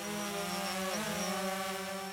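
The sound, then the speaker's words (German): A small white drone lifting slowly off the ground on a sports field gives a steady, buzzing whine of layered tones at an even, fairly faint level, with no talk. “Die Fernsteuerung in der Hand lässt er seine weiße Drohne ganz langsam vom Boden abheben.”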